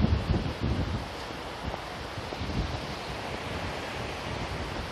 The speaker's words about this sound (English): Astonishing to come off from calm to heavy breeze. Not quite high wind, but it's getting there.